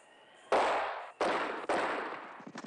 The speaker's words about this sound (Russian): Стреляет сквозь стену.